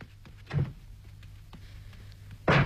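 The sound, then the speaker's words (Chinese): A house door being shut tightly, heard as two dull, low thuds a couple of seconds apart over a faint steady hum. “秀云急忙拉起小伟进了屋，把房门紧紧关上”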